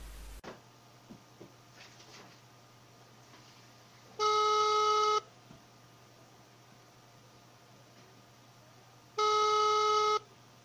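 Ringback tone of an outgoing telephone call to a seller of a 2017 Toyota Land Cruiser: two long, steady tone bursts of about a second each, some five seconds apart, over a low constant hum and hiss.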